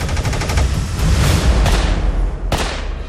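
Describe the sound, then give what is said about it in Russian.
Gunshots from a Soviet TT self-loading pistol ring out in a rapid, loud series of sharp cracks, the reports running close together with a few standing out more strongly than the rest. “Пистолет ТТ.”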